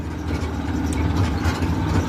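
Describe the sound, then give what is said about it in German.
Steady low engine drone from a red motorcycle tricycle with a metal sidecar moving slowly over narrow gravel roads. A continuous rumbling idle-like hum holds fairly even throughout, with no distinct separate events. “Das rote Tricycle kommt nur langsam voran. Das Motorrad mit angehängtem Metallgehäuse holpert über enge Schotterwege.”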